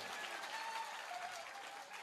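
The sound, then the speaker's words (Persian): Applause from a crowd clapping along, a dense, steady patter of many hands, faint and even throughout. “اون کف قشنگه رو بزن آره دست عقبی ها نمیاد بالا”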